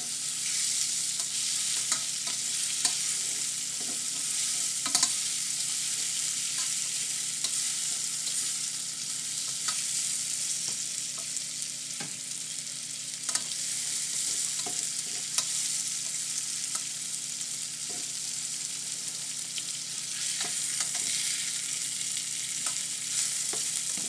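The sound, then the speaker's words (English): Ginger sizzling steadily in a hot pan while it is stirred, with a dense, even frying hiss and scattered soft scraping clicks from the stirring. The sizzle holds at a constant loudness throughout, with no talking. “Smell the ginger. That sounds good. I'm going to give that a little bit of a mix for a bit.”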